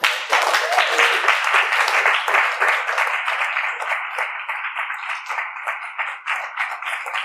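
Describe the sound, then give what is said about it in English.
An audience claps at a presentation event in a quick, dense patter of sharp hand claps that continues at a fairly even level and fades only slightly toward the end. “I think we can all clap for them”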